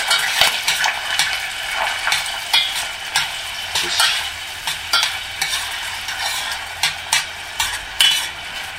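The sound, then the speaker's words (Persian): Finely chopped onion sizzles in a pan and is stirred, giving a steady bright frying hiss with many repeated scraping strokes of a utensil against the pan, and no voices. “میزنم پیاز رو.”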